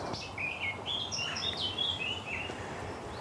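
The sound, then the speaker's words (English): Birds calling around farm barns, with sparrows and house martins, giving quick high-pitched chirps and twittering notes in a busy, overlapping series over a soft, steady outdoor background. “And there's also sparrows here. And I did see the other day some lovely house martins foraging around here.”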